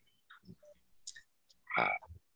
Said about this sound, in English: Ask the local tree frogs enjoying the wetlands I live next to.